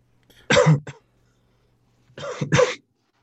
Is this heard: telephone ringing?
no

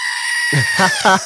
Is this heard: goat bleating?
yes

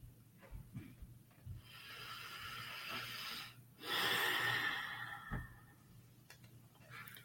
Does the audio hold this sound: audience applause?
no

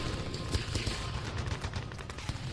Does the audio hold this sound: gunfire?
yes

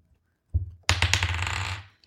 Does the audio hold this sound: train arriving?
no

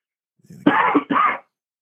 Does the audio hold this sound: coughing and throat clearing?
yes

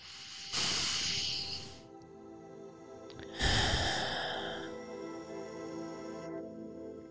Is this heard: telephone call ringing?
no

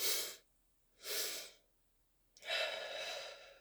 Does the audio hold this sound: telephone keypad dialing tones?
no

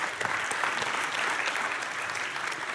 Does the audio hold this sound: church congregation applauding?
yes

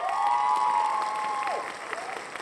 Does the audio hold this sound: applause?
yes

